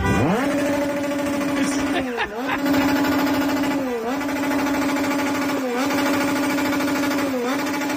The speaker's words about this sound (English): Now, either that's a motorcycle or someone is using a drill to try to fix something right outside the hotel.